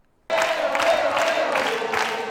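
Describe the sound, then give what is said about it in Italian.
Stadium-style cheering fills a packed Teatro Troisi theater hall. The dense crowd roar starts abruptly after a brief silence and stays loud and steady to the end. “Tifo da stadio e sala del Teatro Troisi pienissima.”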